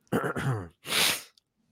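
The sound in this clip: Someone clears their throat in two short, rough, raspy bursts, fairly quiet, with no other sound.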